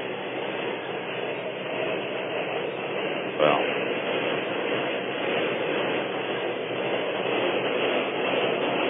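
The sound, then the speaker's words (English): A subway train passing overhead at Roosevelt Avenue and Queens Boulevard makes a loud, unbroken rumbling roar for nearly nine seconds, with one brief sharp click about a third of the way in. “I shouldn't have to stop talking, but I am because of the loud subway noise overhead.”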